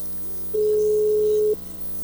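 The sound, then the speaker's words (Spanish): Ringing tone of an outgoing telephone call: a single steady, mid-pitched electronic tone lasting about one second, alone over quiet line noise. “Ahí está dando tono, güey.”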